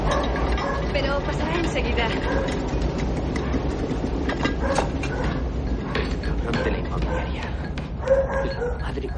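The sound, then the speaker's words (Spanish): A subway train passes beneath a house and makes it shake: a continuous, dense rumbling roar with rattling and clattering running steadily throughout. “De repente empieza a pasar el metro y toda la casa tiembla.”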